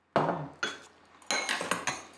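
Bowls and cutlery clink as a family dinner is dished out: a few sharp ceramic and metal knocks spaced apart, then a quicker cluster of clinks toward the end, with no talking.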